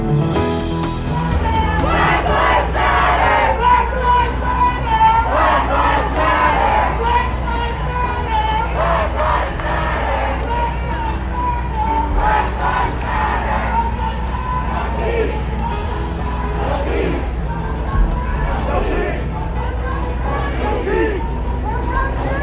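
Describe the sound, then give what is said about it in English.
Crowds of Black Lives Matter protesters, hundreds of thousands strong, fill the Washington, D.C. city streets, shouting and chanting in loud rhythmic waves, with a constant babble of many voices underneath throughout. “it was the sound on the city streets in Washington, D.C. as hundreds of thousands descended on Saturday to protest. They are telling us that Black Lives Matter. That's what they're shouting.”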